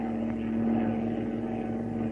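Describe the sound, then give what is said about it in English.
US Army bombers take off from a Manila airfield with a steady, loud engine drone. A constant low hum runs unbroken under the roar. “U.S. Army bombers rise from a Manila airfield with orders to engage the enemy off northern Luzon.”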